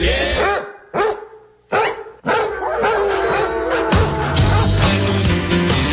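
A dog barks a few times in sharp, separated bursts, then the barking runs into a dense, sustained stretch with some howling.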